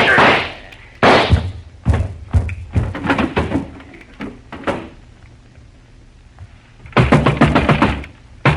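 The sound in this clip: Gunshots ring out in a sudden shootout: many sharp, loud cracks with short decays, spaced irregularly at first and then packed into a dense rapid burst near the end.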